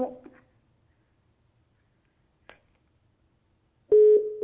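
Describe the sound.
A telephone tone sounds as a call-in line disconnects: a short click, then a steady, loud electronic tone that starts abruptly and holds to the end.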